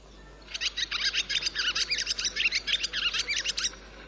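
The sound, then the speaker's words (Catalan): Barn swallows twitter, more than one bird: a dense, rapid run of many short, high-pitched chirps and warbling notes that starts half a second in and ends near the close. No voices are heard. “aquest és el so de l'oraneta comuna”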